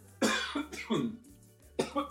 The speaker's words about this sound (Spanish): No, mentira, voy a toser.